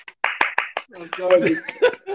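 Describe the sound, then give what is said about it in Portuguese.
A few sharp hand claps from a small group cheer a good joke. They come in a quick, even run, then give way to laughter and overlapping talk. “Salva de palmas. Uma piada foi boa hoje.”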